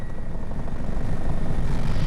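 Engine and rotor of an emergency medical helicopter that carries a doctor and paramedic to call-outs, a loud steady roar with a fast, slight pulsing throughout and no voices.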